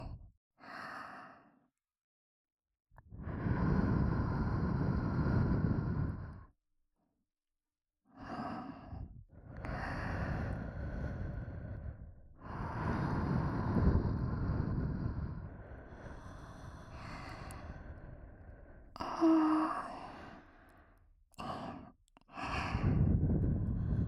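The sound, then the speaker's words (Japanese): Gentle ASMR blowing into the listener's ears: soft, breathy puffs of air, some long and some short, separated by brief silent pauses. No one speaks. “まずはお耳フーフーしちゃいますね。いいですか。始めちゃいますよ。”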